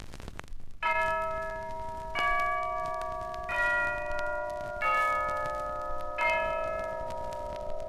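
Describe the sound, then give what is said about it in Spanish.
Church bells toll in five slow, evenly spaced strikes. Each rings on with a bright, sustained metallic tone that overlaps the next, and no voices are heard. “Ya doblan las campanas, se llevan a mi amor”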